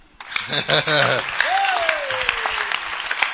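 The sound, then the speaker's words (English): Audience clapping fills the background with a steady patter while a loud voice speaks over it, the clapping continuing throughout. “I don't know what you're clapping for, but you should be clapping for God.”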